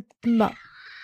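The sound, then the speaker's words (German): A single short meow from a kitten that wants onto a lap: a loud harmonic cry with a slight bend in pitch that trails off into a soft, breathy tail. “Kätzchen möchte sehr dringend auf meinen Schoß und kniet jetzt. Okay, warte, Moment, jetzt kommt kurz ein bisschen Katze.”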